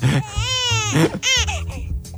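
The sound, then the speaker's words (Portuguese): Baby crying sound effect: a few loud, wailing cries whose harmonic pitch rises and falls, heard alone without talk. “Mas o bebê não está a dormir. Pois não está a dormir, está a chorar. Vou deixar aqui o meu bebê a chorar.”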